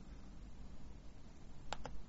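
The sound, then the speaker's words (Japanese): Two quick mouse clicks double-clicking an installer package on a computer, sharp and faint over a low steady hum. “でこのインストーラーのパッケージをダブルクリックします”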